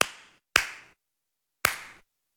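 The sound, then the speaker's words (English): Three sharp, separate hand claps, each with a quick decay, stand in for audience applause and leave long gaps of silence between them. “Ooh, thunderous applause there.”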